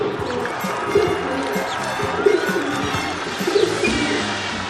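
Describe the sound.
Pigeon cooing in Piazza San Marco, Venice: a few soft, low coos rise out of a steady background murmur of outdoor noise.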